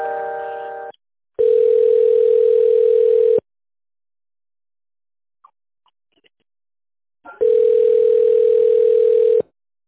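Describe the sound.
Telephone line tone while a call is transferred to another department: a brief chord of mixed tones, then two steady, mid-pitched hums of about two seconds each, separated by a long quiet gap.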